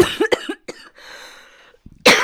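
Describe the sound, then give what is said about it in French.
Sharp coughing from a person on a French-language press review: a few short, harsh coughs in quick bursts, a quiet stretch of faint noise, then another loud cough at the end. “j'ai voulu rigoler, je suis puni, je tousse.”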